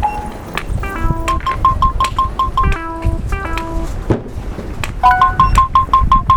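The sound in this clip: Short electronic beeps from an obstacle-detection navigation device sound over steady street noise. Clusters of stepped tones, some dropping lower, alternate with quick runs of repeated high beeps.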